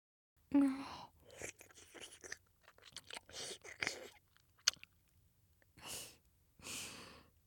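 Wet, saliva-heavy kissing: a string of soft smacking and slurping bursts mixed with breaths, quiet overall and without talking.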